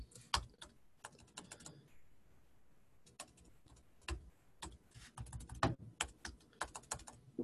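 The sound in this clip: Typing on a computer keyboard in a text editor: quiet, irregular keystrokes in quick bursts, with a brief lull in the middle before a busier run of clicks resumes.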